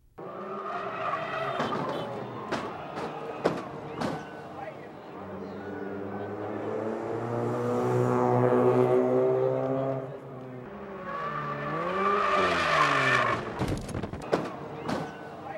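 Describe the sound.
A race car skids and rolls over during qualifying, a long wavering squeal of tires with shifting tones, broken by sharp cracking hits early on and swelling louder in the middle before fading and rising again.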